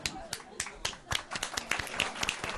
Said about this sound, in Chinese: 唔好笑咪算咯，大家唔使咁样，即系唔使咁 嗰个掌声 诚恳咁样， 掌声雷动